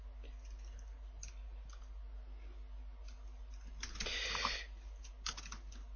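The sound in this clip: Computer keyboard typing, a long run of quick, light key clicks over a steady low hum, with a denser, louder flurry of keystrokes about two-thirds of the way through.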